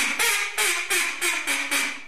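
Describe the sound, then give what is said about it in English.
A hand-blown duck call gives a rapid series of loud, raspy, nasal quacks, each a short burst in an even rhythm, with nothing else heard. “with a videotaped statement and his own duck call”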